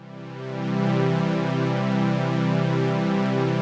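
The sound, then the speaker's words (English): A synthesizer note with a slow, soft amplifier envelope attack swells gradually over about a second, then holds as a steady, rich, buzzy tone at full level. “If we increase our attack time, our sound comes in more slowly and we create a softer attack.”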